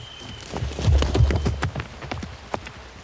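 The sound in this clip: Horse hooves clip-clop in a quick, regular rhythm as a rider rides off. They are loudest early on, then grow fainter, ending in a few scattered hoofbeats.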